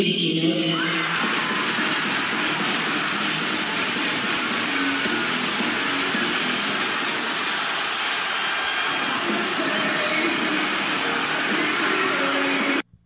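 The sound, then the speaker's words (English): A wrestling crowd roars and cheers at Edge's AEW debut. The loud, dense roar holds steady for the whole stretch, then cuts off abruptly near the end. “There he is right there. He blew the roof off the place. The crowd went absolutely nuts.”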